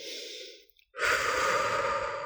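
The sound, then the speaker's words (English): Two deep breaths during a mindfulness breathing exercise: a softer airy breath, a brief pause, then a louder, longer rush of air, heard alone without talk. “what I would suggest is if just taking a few deep breaths and following it in”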